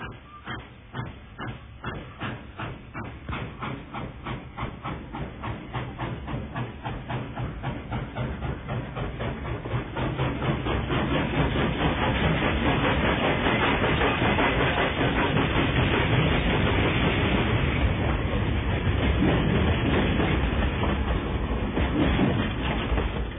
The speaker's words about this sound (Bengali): train ধায় সময় সময়, city মারে নদীর ধারে, মাঠ ধরে চলে পড়ে, পুকুর পাড়ে তীরের